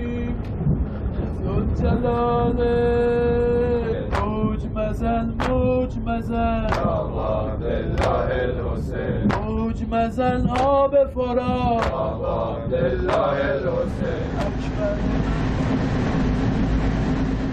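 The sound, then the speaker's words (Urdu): Steady low rumble of a night train running, with a mournful chanted lament sung over it throughout. The rolling noise stays continuous beneath the voice. “شہید کی یاد میں نوحہ لے میں پڑھا جا رہا ہے، جو رات کے اندھیرے میں نائٹ ٹرین کی چلنے کی آواز سے ہم آہنگ ہے۔”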